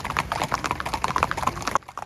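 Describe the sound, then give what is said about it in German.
Horse hooves clip-clopping as a racehorse comes back from the horse walker at a racing yard. The hoofbeats are quick and even, with many light strikes, and they stop abruptly near the end. “Sisverhahn hat seinen Job in der Führmaschine erledigt.”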